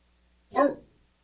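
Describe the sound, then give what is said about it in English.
A single loud bark from a large 130-pound dog barking at a door, one short, full-bodied burst with no other sounds around it. “That is 130 pounds of dog barking at a door.”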